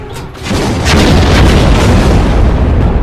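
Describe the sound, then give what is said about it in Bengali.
Massed anti-aircraft cannons fire together at approaching warplanes in a World War battle, barrels raised skyward. A heavy, booming roar surges in after a brief quieter start and holds loud and continuous to the end. “ওই কালো কালো বিন্দুর মতো ছোট যুদ্ধ বিমানগুলো তাদের পাল্লার মধ্যে আসতেই হুঙ্কার দিয়ে একসাথে গর্জে উঠল অজস্র কামান।”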